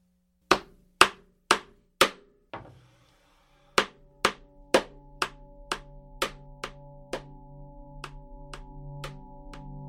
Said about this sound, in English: now I'm nailing the sides together and nailing them to the base of the coffin